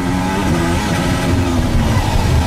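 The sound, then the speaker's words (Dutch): Onboard engine sound from Carlos Sainz's Formula 1 car at the 2023 Monaco Grand Prix, braking near the casino and getting back on the throttle: a loud, buzzing, high-revving engine with rich harmonics and no voices. “Dit zijn de onboordgeluiden aan boord van de auto van Carlos Sainz. Bij het casino. Remmen, weer op het gas.”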